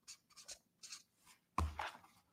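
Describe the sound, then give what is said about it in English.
Pen writing a word on paper in a classroom exercise: soft, faint scratching strokes in a few short bursts, the last one slightly louder. “On each corner, I want you to write the word no.”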